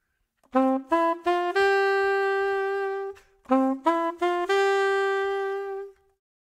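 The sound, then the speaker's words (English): A clean, tone-like melody from the opening of When the Saints Go Marching In, syncopated so the long note falls on the end of beat four: two phrases, each of three short rising notes followed by a long held note. “what I did is I put that long note on the end of four. Sounds like this.”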